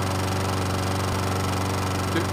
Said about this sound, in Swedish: Jag klipper gräset här.